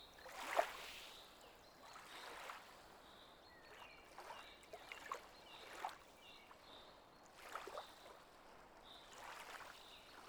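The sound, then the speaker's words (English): Lake water lapping gently against the shore, faint soft splashes and washes that arrive in an irregular, unhurried rhythm with quiet hiss between them. “you can hear the soothing sound of the water gently lapping against the shore.”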